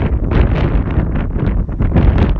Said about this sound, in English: Although the wind isn't going to be very helpful here.